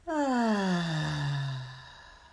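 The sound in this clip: A deep breath out as a long voiced sigh during a breathing exercise. It starts fairly loud and slides gradually down in pitch before fading, alone with no talk.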